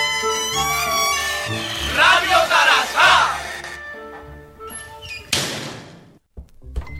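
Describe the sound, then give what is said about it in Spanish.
A bar door opening after loud, shouting voices, followed by a couple of sharp thuds near the end. “Se abre la puerta del local.”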